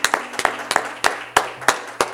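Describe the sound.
A small church audience claps hands in praise during a service: a steady, rhythmic beat of many sharp claps, roughly evenly spaced, with no voices over them.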